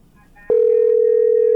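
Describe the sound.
A telephone line trouble tone on a call to a radio program: after half a second of faint noise, a loud, steady, unbroken mid-pitched tone starts abruptly and holds to the end.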